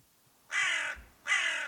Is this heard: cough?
no